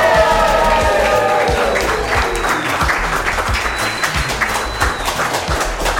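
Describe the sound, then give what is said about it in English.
Live studio audience cheering and applauding at a celebratory milestone taping: loud, dense clapping mixed with whoops and shouts at the start, then sustained applause with a few sharper claps standing out. “And for the first time ever, with you, our live studio audience.”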